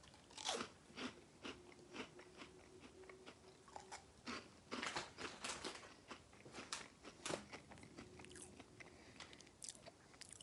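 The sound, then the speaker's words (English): Someone crunches into beer-battered onion rings, giving many faint, crisp crunching and chewing bites in an irregular rhythm, with no talk over them. “Beer battered onion rings. How do they taste? 3, 2, 1.”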